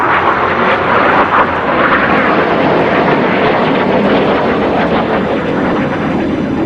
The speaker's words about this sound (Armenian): Հեղաշրջման դավադիրների վերահսկողության տակ գտնվող F-16 ինքնաթիռները սկսել էին ցածր թռչել Անկարայի վրայով, կարծես թե հանությանը վախեցնելու համար։